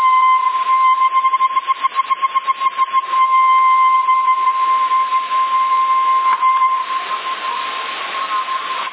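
A steady whistling tone comes through a CB radio, a continuous radio squeal that pulses rapidly for a few seconds early on, then holds as a smooth, unbroken tone to the end.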